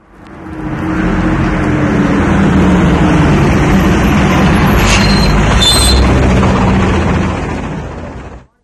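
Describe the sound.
A car drives with a steady, loud engine and road rumble that holds evenly, then eases off and fades near the end as the vehicle comes to a stop.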